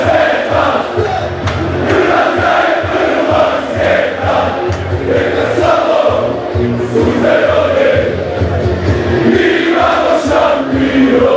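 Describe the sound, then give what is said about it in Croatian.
Crowd of Croatian football fans filling the streets of Berlin before a European Championship match against Spain: a loud, continuous roar of many voices with shouts rising out of the din throughout. “Apsolutni kaos je u Berlinu, vatreni navijači su na svakom koraku, ulice su potpuno okupirane kockicama i sve je zaista spremno za utakmicu koja počinje u 18 sati.”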